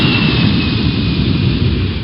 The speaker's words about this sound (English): Williamsport Regional Airport, cleared for takeoff.